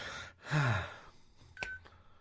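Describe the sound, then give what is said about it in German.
A single short electronic beep from a mobile phone, clear but brief, rising out of a low, quiet background with no talk. “bei irgendjemandem piept es bei euch. Irgendwer sucht sein Handy, glaube ich.”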